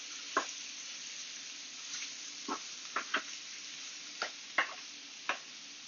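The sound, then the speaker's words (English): Short ribs sear in a pan with a steady, faint sizzling hiss broken by scattered sharp pops and crackles at irregular moments, without any talk. “we're going to go ahead and just check one of the ribs just to make sure that it's able to reach that level of sear that we're looking for”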